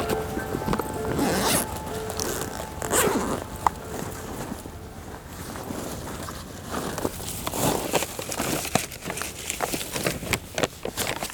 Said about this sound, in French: Je déplie la carte IGN.